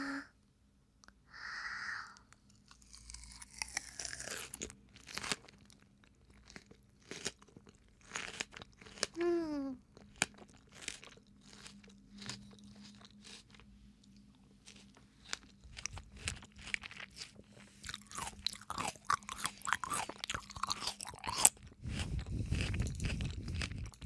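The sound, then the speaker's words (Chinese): Crunching and chewing as someone eats fruit, a melon bought at a market: many irregular crisp bites and wet chewing noises that come and go across the stretch, with no talk over them. “我要吃水果啊，喂我嘛”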